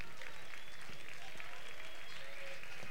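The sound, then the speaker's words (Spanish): Audience applause for outgoing festival queens at a presentation event in Cuarte de Huerva, 2010: dense, steady clapping from many hands that holds at an even level for the whole clip. “vamos a darles un muy fuerte aplauso a nuestras reinas salientes.”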